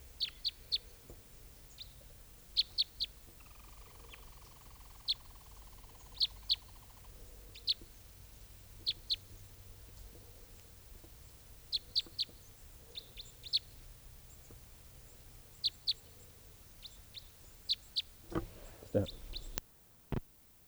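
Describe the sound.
Sharp, high chirps from a decoy bird answering calls: many brief notes come in irregular clusters over a steady low rumble, and a louder noisy burst arrives near the end.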